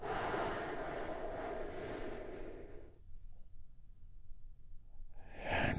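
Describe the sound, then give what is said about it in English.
A slow, deep breath: a long, soft, airy inhale lasting a few seconds, near silence for a moment, then the breathy start of an exhale. Quiet and close throughout. “Healing Moment of Zen by taking a big, deep, healing breath together. Here we go.”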